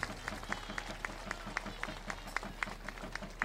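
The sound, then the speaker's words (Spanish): A crowd claps rhythmically at a religious gathering for a papal visit. The claps are faint and evenly spaced, falling in a steady beat throughout. “Fuerte el aplauso al cielo y apurando la visita de León.”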